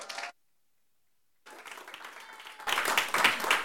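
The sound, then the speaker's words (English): A church audience applauds, starting with a brief burst of clapping that cuts off into silence. The applause then returns and swells to a louder, denser roar of many hands. “Y'all make some noise for Timmy”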